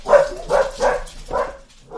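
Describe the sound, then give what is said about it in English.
Dog barking: several sharp, loud barks come at an uneven pace, each a short burst with a clear tonal edge, and another bark is just beginning as the sound ends. “the dog's got something to say about that.”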